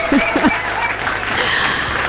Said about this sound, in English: it is pretty much a resounding congratulations and applause because the answer is Harrod Antipas